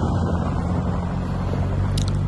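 A vehicle driving up at the Vaidava hillfort: a steady, low engine rumble mixed with broad wind-like noise, holding an even loudness throughout.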